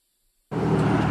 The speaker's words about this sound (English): Hundreds and hundreds of cars are driving by past our church.